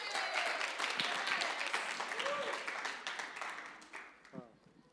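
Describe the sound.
Audience applause at a church service welcoming a scripture reader to the front: dense, steady clapping that thins and fades over the final second, with a voice coming in near the end.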